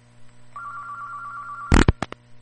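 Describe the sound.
A telephone rings with an incoming call, a steady electronic tone held for just over a second, then cut off by several loud, abrupt clunks in quick succession.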